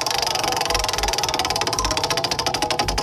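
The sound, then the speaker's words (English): Rapid clicking of a prize wheel spinning during a country music trivia game on radio, a dense, steady ratcheting tick that runs alone throughout. “Ready to spin the Who Dials Country Music Trivia Prize Wheel for your chance to win and get the correct answer, of course, and get the Wee Street Ice Center game day pack? Sure. Yep. All ready. Right. Give her a spin there, sweetheart.”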